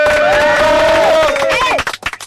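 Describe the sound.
Crowd noise welcoming a rockabilly band into a studio: a long, sustained cheering tone gives way to a few sharp, scattered claps near the end.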